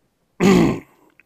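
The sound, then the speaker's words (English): One short, gruff throat clear, a low rasping burst of about half a second followed by a faint click, heard alone without talk. “I'm sorry, I had to clear my throat.”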